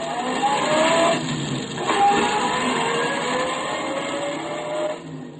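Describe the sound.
A car driving away makes a continuous engine drone with a faint whine, holding steady before easing slightly toward the end.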